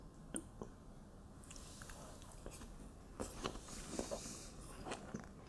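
Someone chews a chocolate and peanut butter snack up close, with soft, quiet, squishy bites and chews repeating irregularly over faint background noise.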